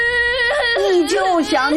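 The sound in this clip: A child cries in distress, upset at being placed in a different school class from a friend: a loud, continuous wailing voice whose pitch wavers, sagging and rising in short sobbing swells.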